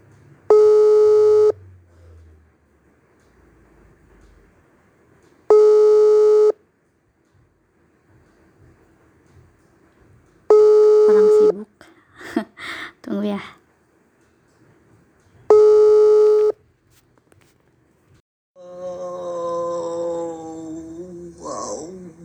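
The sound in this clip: Ringback tone of a phone call that has not yet connected: four evenly spaced, loud, steady buzzing tones, each lasting a little over a second, separated by quiet gaps, with brief voices and noise between them and talk near the end.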